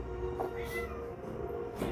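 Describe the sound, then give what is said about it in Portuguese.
A restless cat meows a few times during a tabletop role-playing game session, the cries rising over a steady background hiss. “Por que o gato tá revoltado? Ele quer carinho.”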